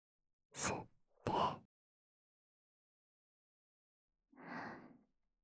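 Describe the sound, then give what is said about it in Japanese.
Deep breathing with three soft breath sounds. Two come close together, then after a few seconds of silence a longer, quieter breath follows. “深呼吸しよっか。息。”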